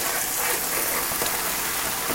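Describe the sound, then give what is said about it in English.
Package of raw spinach being opened, a continuous crinkly rustle of the bag that stays fairly even throughout with a few sharper crackles. “So I'm going to open my spinach.”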